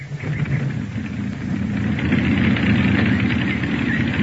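Aircraft engine on a test flight, starting up and settling into a rough, rumbling idle that grows louder and then holds steady.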